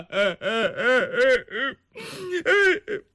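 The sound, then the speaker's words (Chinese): A voice imitates a person crying with a series of rhythmic, wailing sobs that rise and fall in pitch, broken by short gasping pauses, loud and with no talk around it. “他哭了。”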